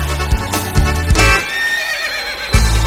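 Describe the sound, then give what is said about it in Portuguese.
Hooves of a dark dapple-grey horse trotting across a field on a moonlit night: a few dull thuds in an uneven rhythm, and a loud, wavering whinny in the middle. “Dali a pouco ouviram tropel, olharam o campo, noite enluarada. Eu vinha vindo no tordilho negro, feliz saboreando uma marcha troteada”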